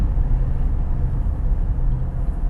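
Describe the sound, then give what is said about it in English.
Steady low engine and road rumble of a car driving through Milligan in Okaloosa County, a continuous droning hum without breaks and with no voices. “A 30-second drive, and we're already through Milligan.”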